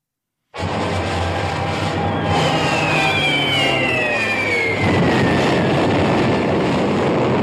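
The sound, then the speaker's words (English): Opening of the film trailer for The Guns of Navarone: a loud, sustained roaring drone, like engines or aircraft, with high whining tones gliding downward across it and no voices. “here's the trailer for Guns of Navarone for Senator Cruz. Here it is.”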